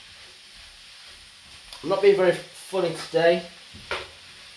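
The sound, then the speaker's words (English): Onions frying in a big pan for a curry, already translucent and taking on colour, give a steady hiss and sizzle that runs through the whole stretch, with a voice speaking briefly over it in the middle. “So now the onions are getting translucent. They're getting a little bit of colour to them, which is great. Because I'm using a big pan, it's a lot easier.”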